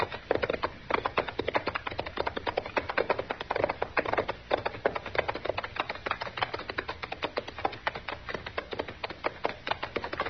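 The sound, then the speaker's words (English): Horses' hooves clip-clop as the riders walk their mounts down a slope, many dry, woody taps in a steady, dense pattern that continues evenly for the whole stretch without voices. “Now, come on, we'll ride down and say hello.”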